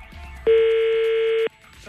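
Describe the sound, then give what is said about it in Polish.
A telephone tone sounds as a call is placed to a clinic's registration number. One steady, mid-pitched beep lasts about a second, with faint background noise on either side. “Patrycja Zielonka postanowiła zatelefonować pod numer podany jako numer rejestracji, żeby zapytać, co musi zrobić, żeby babcia takie badanie odbyła i na czym ono polega. Posłuchajmy.”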